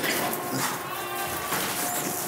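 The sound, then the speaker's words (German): A goat gives a single wavering bleat as it is let out ahead of other farm animals, set against a rustling, noisy background. “Ziege, du musst einmal wieder raus. Und ihr alle hinterher, zack, zack, zack, zack, zack, zack, zack.”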